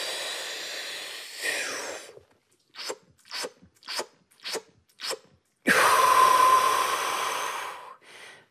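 A trained freediver performs breath packing: a long deep inhale, then a rapid series of short, sharp gulping sips of air forcing more into the lungs, followed by a longer breathy rush and a faint final breath.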